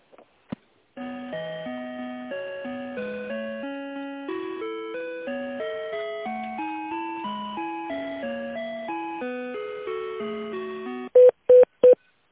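Telephone line tones play while a call is being transferred, a stepping electronic melody of clean, pitched notes held one after another, then a few short, sharp beeps at the end.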